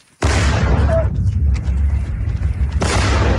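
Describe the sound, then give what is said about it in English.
A sudden heavy boom during a night-time Russian attack on Kyiv, followed by a sustained loud, deep roaring rumble with a brief faint tone, and a fresh surge of blast noise near the end. “This was Kyiv last night under another Russian attack.”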